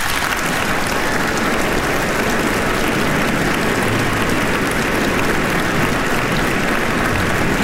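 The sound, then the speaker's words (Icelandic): Concert audience applauding the Iceland Symphony Orchestra and its conductor Daníel Bjarnason at an evening concert: dense, steady clapping that holds at an even, full level for the whole stretch, with no voices standing out. “Það er Daníel Bjarnason sem stjórnar henni hér í kvöld og ég legg til að við gefum henni gott klapp.”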